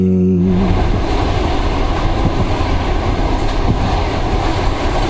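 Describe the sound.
A train runs on rails with a loud, steady rumble and continuous clatter of wheels that stays even throughout.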